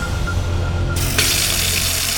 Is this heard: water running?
yes